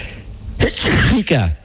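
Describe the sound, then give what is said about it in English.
A single sneeze comes after a short gasping build-up, bursting out loud and explosive and then ending abruptly. “I just missed the mute button. Then I tried to hit it before I sneezed. It was building up.”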